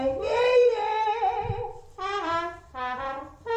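A woman imitates a trumpet using only her lips, buzzing three brassy, sustained notes: a long wavering one, then two shorter tones, each with a rich, reedy buzz.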